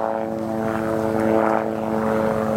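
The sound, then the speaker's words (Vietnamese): Propeller airplane engine droning as it flies overhead: a loud, steady harmonic hum with a deep throb that holds evenly throughout, with no voices. “Em bay như vậy nó ồn, sao cô phát thoại được?”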